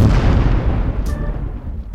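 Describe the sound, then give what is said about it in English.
A comedic explosion sound effect for exploding pants: a loud, deep, rumbling boom that slowly fades over about two seconds, with a faint, brief tonal chirp partway through. “Caution, if you call us, your pants may explode.”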